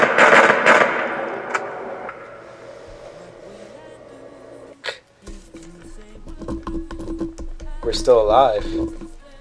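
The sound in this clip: Rapid repeated gunshots, one person firing at another, sound as dense, sharp cracking bursts at the start, then sparser scattered shots with people talking over them.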